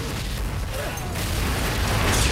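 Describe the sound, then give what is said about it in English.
A missile hits a helicopter just as it takes off and explodes in a massive ball of flames. A loud, dense roar of noise holds throughout and swells toward the end. “It explodes in a massive ball of flames.”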